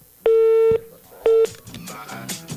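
Telephone busy tone on a phone-in line after a caller's call dropped: two loud, steady electronic beeps, the second shorter than the first, followed by quieter mixed background sound.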